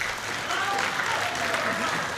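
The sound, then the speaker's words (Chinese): Scattered audience applause greets a pair of performers arriving for a traditional xiangsheng crosstalk act in Beijing. The clapping is moderate and uneven, a brief patter of hands at a fairly constant level. “咱们热烈掌声有请二位。 感谢朋友们稀稀拉拉的掌声”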